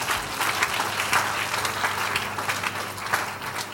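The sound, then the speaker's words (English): An audience claps their hands during a church prayer and deliverance service, a dense, steady wash of many hands that keeps going at an even loudness through the whole clip. “Clap your hands, somebody.”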